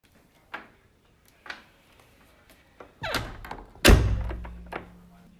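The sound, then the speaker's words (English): A door makes a few faint clicks, then a rattling movement and one loud, heavy thunk with a low resonant tail. A softer knock follows, and there is no talk. “That's right. It's a door.”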